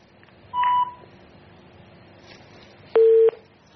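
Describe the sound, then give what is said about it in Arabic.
Telephone tones after a disconnected call: a short higher beep, a pause, then a lower beep, both clear over faint background hiss. “قطع اتصال”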